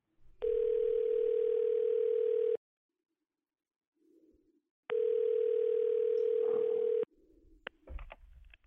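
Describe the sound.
Telephone ringback tone on a call line: two long, steady electronic tones, each about two seconds, separated by a pause, with a faint soft sound in the gap and scattered clicks and noise at the end.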